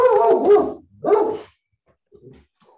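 Dog barking: two loud, rough barks in quick succession, then quiet apart from a few faint, brief sounds.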